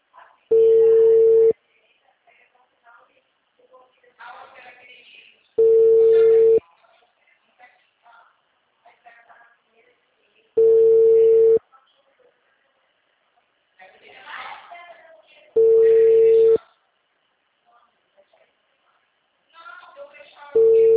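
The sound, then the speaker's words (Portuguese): A telephone busy tone after a dropped call: long, steady mid-pitched beeps about five seconds apart, four full ones and a fifth cut off at the end, with people talking in the gaps between them. “a ligação caiu”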